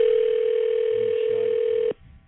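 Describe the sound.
A telephone dial tone plays while a call is being placed: one steady, unbroken mid-pitched hum held for about two seconds, then cut off abruptly, leaving only faint low background noise.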